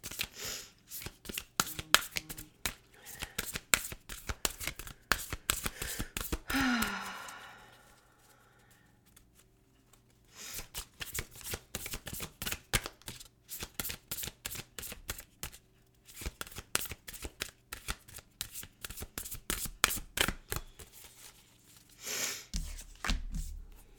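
A deck of reading cards being shuffled for a monthly reading: many rapid, crisp riffles and taps in two long runs separated by a quiet pause, faint overall.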